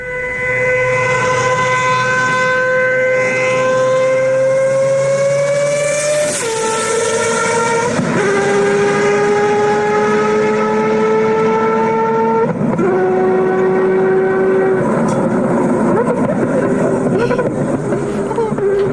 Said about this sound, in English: The downshift is insane. That is so cool. So that sounds like a bike. Yeah. That does sound like a bike. So it kind of sounds like a Formula One car as well. It's probably as loud. It's got to be a rotary. It is a rotary.